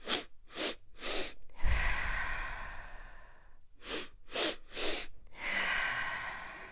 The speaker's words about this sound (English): it's an inhale quick, like inhale into the belly, into the lung, into the head, and then you exhale.